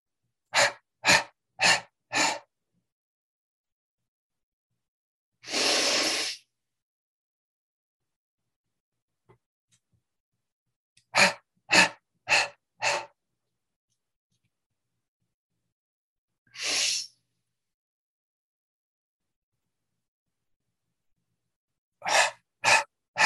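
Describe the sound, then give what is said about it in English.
Staccato breathing on the exhale: groups of four short, sharp exhaled puffs alternate with a single longer breath, and the cycle repeats several times with clear silence between. “Now we're going to add some staccato on the exhale.”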